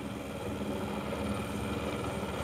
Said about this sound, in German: Deshalb haben sie den Hubschrauber gerufen.